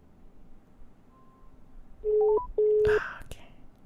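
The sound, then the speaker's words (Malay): Two telephone keypad tones sound loudly over a faint, steady hiss as someone redials to call back after a dropped call. Each beep lasts about a third of a second, with a short gap between them. “saya akan cuba hubungi semula”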